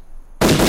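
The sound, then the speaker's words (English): Gunfire from an AK-47 rifle breaks in abruptly after a brief near-silence, as a loud, harsh blast that stays loud until the end. “This is an enemy AK-47 being fired at a white British soldier.”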